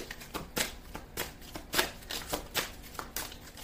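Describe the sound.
A deck of oracle cards is shuffled, giving a series of crisp, papery riffling bursts at a fairly steady rhythm, moderately loud and with no talk.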